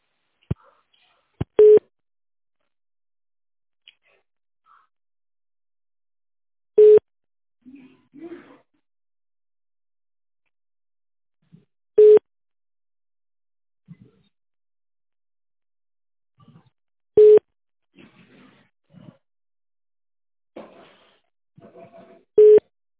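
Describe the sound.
Telephone line tone while a call is being transferred: five short, steady beeps at even intervals of about five seconds, with faint muffled voices in the gaps between them.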